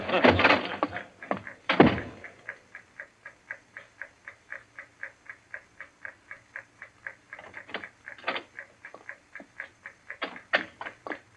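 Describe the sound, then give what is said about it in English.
A bomb's time fuse ticks in a radio drama, a faint, evenly spaced ticking that runs steadily through the scene after a few louder knocks at the start. “They're taking you here as the time fuse for the bomb that's going to blow out this place. It's all set. You won't have long to wait.”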